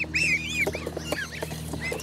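A crested goose calling: squeaky, high-pitched call notes repeated in quick, uneven succession over a steady low hum.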